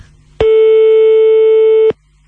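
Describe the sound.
Telephone line tone while placing a call: a loud, steady single-pitched tone held about one and a half seconds, a short gap, then the tone starting again at the end.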